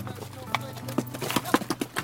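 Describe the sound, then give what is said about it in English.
Hooves of a mule herd clop along a rocky canyon trail on switchbacks, with many irregular, fairly crisp hoofbeats under a low voice talking. “A dozen mules make their way out of the canyon as we hoof it down the switchbacks.”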